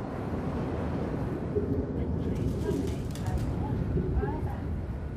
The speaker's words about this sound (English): Its cast iron frame is full of dozens of perfect pigeon apartments.